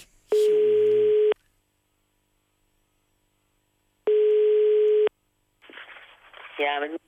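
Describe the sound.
Telephone line tones while placing a call: two long, steady beeps of about a second each, separated by a quiet pause, then a person starts speaking on the line.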